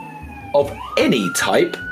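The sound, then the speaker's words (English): An ambulance siren goes by, its wailing tone sliding in pitch beneath a person talking. “Sorry, there's an ambulance going by. I hope that person's okay.”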